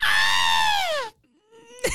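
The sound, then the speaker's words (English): A person's voice imitates a falcon screech with one loud, harsh, sustained cry lasting about a second that slides down in pitch at the end, followed by a fainter, thinner tone and a brief burst. “Give me your best Falcon screech. Not too close to the mic, but give me your best Falcon screech.”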